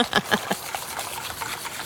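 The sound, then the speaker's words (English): A whisk beats a batter of milk and flour, making quick, rhythmic wet sloshing strokes. The strokes are steady and fairly even, with no voices. “So you're just whisking up the other mixture, the milk, the flour.”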